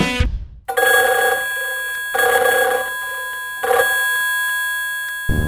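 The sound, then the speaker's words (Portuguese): A telephone bell rings in three loud bursts, each metallic peal fading away before the next begins. “E pra falar com o Napi, pegou o telefone.”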